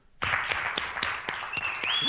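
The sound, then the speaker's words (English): Audience applause at the close of a show. Clapping sets in abruptly and holds as a steady wash, with a few sharper individual claps standing out. “give yourself a big round of applause”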